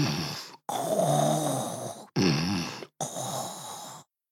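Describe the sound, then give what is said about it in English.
A narrator's voice imitates snoring with four long, rasping breaths separated by brief silences. The second breath is the longest and the fourth is fairly short, all loud and alone without words. “after lunch, they would take a long nap and”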